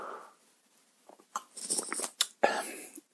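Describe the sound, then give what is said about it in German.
Soft mouth noises of someone sipping a drink, a few faint slurps and wet clicks scattered over a quiet background. “Einen Moment, ich muss mal einen Schluck trinken.”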